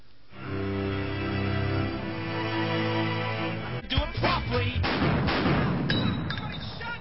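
Gunshot sound effects end a song: a sung passage with music gives way to a few sharp, loud gunfire bursts in close succession, cutting the music off.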